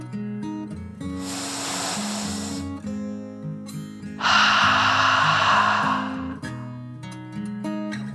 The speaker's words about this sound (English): Taking one more deep dragon breath in and